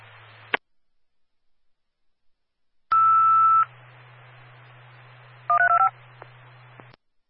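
Fire dispatch alert tones come over a radio channel for a possible residential structure fire. A long, steady tone is followed by a short burst of rapidly stepping tones, set against low radio hiss and faint clicks as the channel keys.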